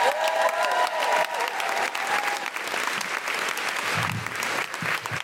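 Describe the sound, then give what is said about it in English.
Sustained applause from an audience in Brighton welcoming a host, a dense, even wash of clapping that holds at steady loudness for the whole five seconds. “Fabulous people of Brighton, would you please put your hands together and welcome Deborah Frances White?”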